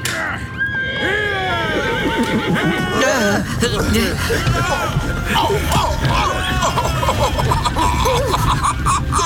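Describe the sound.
Horses neigh as a horse-drawn carriage sets off in a drama scene, with several loud whinnies rising and falling in pitch over a busy bed of hoof clopping and movement.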